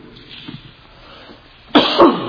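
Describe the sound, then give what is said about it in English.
A loud, rasping cough from a preacher with a seasonal cold bursts out after a quiet stretch. It comes as a harsh double burst, much louder than the soft background before it. “Bear with me with the occasional cough. This is the season.”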